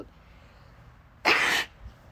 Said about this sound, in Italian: Oddio, uno starnuto.